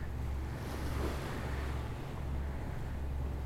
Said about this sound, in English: So we're on motor at the moment, not under sail.